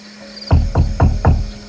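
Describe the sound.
Knocking on a door: four evenly spaced, solid knocks with low, hollow thuds in a quick, steady rhythm after a brief quiet moment.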